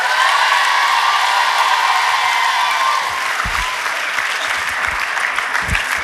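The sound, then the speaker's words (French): A concert audience in Saint-Étienne applauds loudly, with dense, steady clapping and cheering that fills the whole stretch and thins slightly partway through, leaving a few low thumps. “Saint-Étienne, encore un maximum de bruit pour Daisy, s'il vous plaît.”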